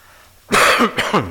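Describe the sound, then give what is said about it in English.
A dry cough from a tickle at the back of the throat: two harsh, breathy bursts close together, loud and alone, with no talking. “This is not a sick cough I've got. It's a tickle in the back of my throat and I just can't get rid of it.”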